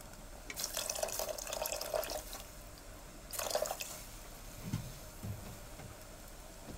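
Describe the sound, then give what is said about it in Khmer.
Water poured into a pot of food as it cooks: a longer splashy pour, then a shorter second one, followed by a couple of soft, low thuds. “ចាយើងអាចរងចាំឲ្យវាពុះបន្តិចឬក៏បើសិនជាលោកអ្នកចង់បានវាឲ្យវាមានទឹកបន្តិចយើងអាចថែមទឹកវា”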